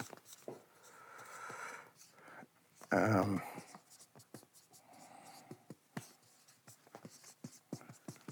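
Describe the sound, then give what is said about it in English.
Hand-writing an answer with a pen on paper: many short, soft scratching strokes in an uneven rhythm, with a brief louder scrape partway through. “I'm writing my answer now.”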